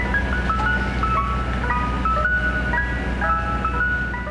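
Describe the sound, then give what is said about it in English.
A Mr. Softy ice cream truck's jingle spills onto a New York City street in summer, a tinkling, looping melody of bright chime-like notes repeating over a constant low rumble. “New York City Mayor Mike Bloomberg had proposed banning that theme from city streets, where it spills forth all summer long from Mr. Softy ice cream trucks”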